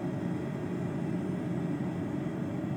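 Steady engine drone of an airplane taxiing onto a runway in a flight simulator game, a constant low roar that stays even throughout.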